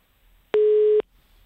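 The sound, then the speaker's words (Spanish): Busy tone after a dropped mobile phone call: one steady, mid-pitched electronic beep lasting about half a second, standing alone against near silence. “¿Pero por qué se me corta el móvil?”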